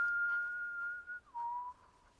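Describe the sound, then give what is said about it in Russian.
A man whistles while taking aim: a quiet, pure note held steadily, then dropping to a lower note that he holds until the end. “прицеливается и насвистывает.”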